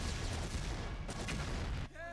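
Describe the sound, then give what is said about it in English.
Sci-fi vortex blasters fire as a sound effect, a loud, dense, continuous blasting roar of noise that ends in a brief warbling tone. “Well, let's give them some help. Right, vortex blasters. Fire.”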